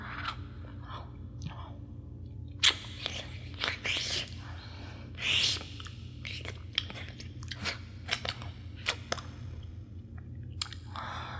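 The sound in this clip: Wet chewing, biting and crunching in a roleplay of a lamia devouring someone raw, coming in irregular squishy bursts of varying loudness, with soft whispering between them.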